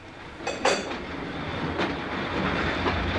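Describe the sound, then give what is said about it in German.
A train rumbles as it pulls into Carlisle station. The rolling noise is steady and continuous, with a few louder rail clacks near the start and no voices. “Planmäßig muss der Zug jetzt auf den Bahnhof von Carlisle einfahren.”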